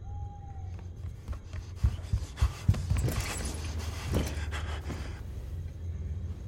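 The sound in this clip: Heavy, agitated panting from a collapsing girl in a dramatized scene: a cluster of irregular, ragged breaths, fairly faint, with the strongest bursts in the middle, over low background noise and no talk.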